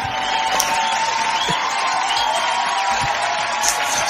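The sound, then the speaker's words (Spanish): Steady crowd noise with applause, a dense even wash of clapping and murmur that holds at a constant level for about four seconds, with a few faint high whistles on top. “Aplausos.”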